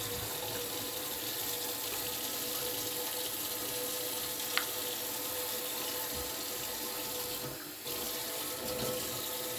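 Water runs from a tap in a steady, even, faint hiss, with one tiny click partway through and a slight dip in the flow near the end.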